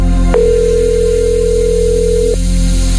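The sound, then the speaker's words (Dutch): A telephone ringing on a call line during a radio quiz: one steady mid-pitched ring tone lasting about two seconds over a constant background hum. “Hoor je iets overgaan ergens in de verte?”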